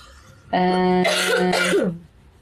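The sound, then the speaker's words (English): A person's cough, throaty and voiced, with two rough bursts over about a second and a half, loud and alone without other talk. “I cough because of energies.”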